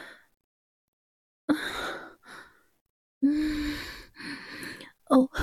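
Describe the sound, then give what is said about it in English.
Breathy sighs and gasps in an intimate setting come in several short bursts separated by silence, some voiced and moaning, others airy and faint. “Have you missed my breaths, honey?”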